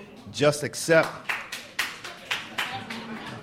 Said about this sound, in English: hold your applause, please.